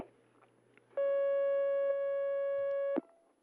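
Telephone line tone of an incoming call on a call-in line: one steady, harmonic-rich electronic tone lasting about two seconds over a faint low hum, ending in a click.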